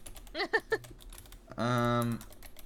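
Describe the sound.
Keys clatter on a computer keyboard as a game title is typed out, a fast, steady run of light clicks broken by brief vocal sounds.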